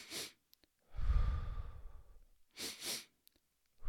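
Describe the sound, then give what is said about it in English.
A person performs the physiological sigh, also called the straw breath, a breathing technique. Quick, sharp inhalations surround one long, soft exhalation that fades gradually. The breath sounds are fairly quiet and stand alone without talk. “Now, what you're hearing is what's called the physiological sigh. It's also known as the straw breath.”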